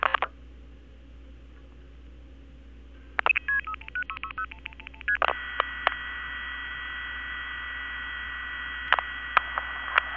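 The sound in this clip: Touch-tone dialing of a long-distance number on a telephone keypad: a rapid run of short electronic beeps, then a steady sustained tone broken by a few faint clicks.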